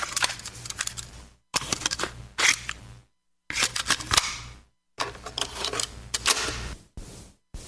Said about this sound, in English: That sound. The tape has popped into the deck and we are ready to roll.